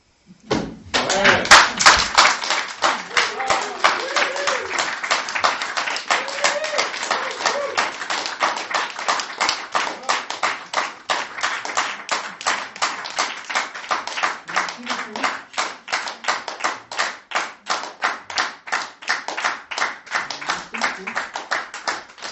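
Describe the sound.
Audience applause after a Molière-themed stage talk: a brief loud burst opens a long spell of dense, steady clapping lasting some twenty seconds, which gradually thins toward the end into more distinct, sharper individual claps.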